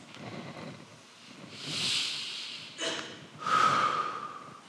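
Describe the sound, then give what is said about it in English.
Deep breathing during a guided listening exercise: a few soft, airy breaths, each swelling and fading. The breaths are faint and heard alone, with no talk over them. “Just take a deep breath.”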